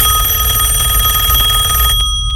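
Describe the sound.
A telephone ringing with a loud, continuous electric bell tone that holds steady for about two seconds and then cuts off, followed by two brief clicks.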